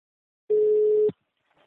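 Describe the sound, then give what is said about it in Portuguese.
A telephone tone heard while a call is placed: one steady, pure mid-pitched hum lasting just over half a second that ends in a click, followed by a few faint small noises. “Eu vou ligar agora.”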